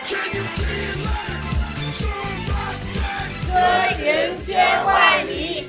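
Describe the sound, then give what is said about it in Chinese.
Colleagues from a vehicle depot chanting in unison and cheering in encouragement, a loud, rhythmic group of voices with a regular beat-like pulse that swells toward the end. “大家听出来了吗？这个就是我们车场的同事们为我加油打气啊，车场欢迎我啊”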